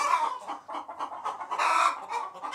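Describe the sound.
A hen clucks after sitting on eggs, a busy run of short, rhythmic clucks that keeps going throughout, with no one talking.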